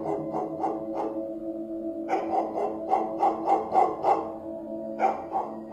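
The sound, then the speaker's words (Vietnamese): A dog barking in the distance at night: many short, sharp yaps in quick bursts, with one brief pause, moderately faint over a low steady background. “Ngay chính lúc mọi người còn đang chán nản thì từ xa có tiếng chó sủa nhấm nhằng vang lên.”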